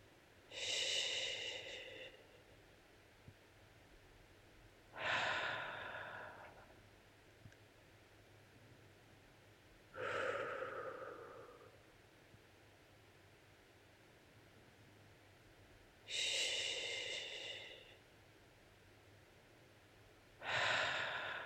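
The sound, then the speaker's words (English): Soft, gentle breathing during a self-soothing meditation: five slow, quiet breaths spaced about five seconds apart, each a brief airy rush, heard alone over a faint steady hiss. “Feel into the soft, gentle breaths and repeat a few more times.”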